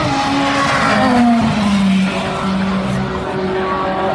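A BMW race car passes by, its engine a loud, sustained droning roar whose pitch falls as it goes past, followed by a continuing engine drone.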